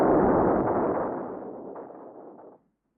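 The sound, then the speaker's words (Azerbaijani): A dynamite explosion is already at full strength at the start: a loud, broad, rumbling roar that fades gradually over about two and a half seconds, then cuts off abruptly into silence. “Birden dinamit patlıyor.”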